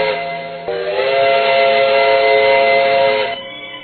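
Steam train whistle blowing at Beijing station in one long, loud, sustained blast with a rich harmonic tone that swells after a brief start and drops off just before the end.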